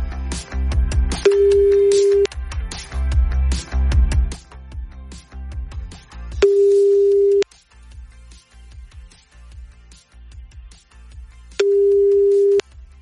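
A telephone call is dialled for a bingo game. A flurry of clicking dial sounds gives way to three long, steady ring tones, each about a second long and separated by quiet pauses.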